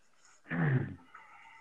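One gruff, rasping throat clearing comes as a short, loud burst that lasts about half a second. Quiet stretches surround it.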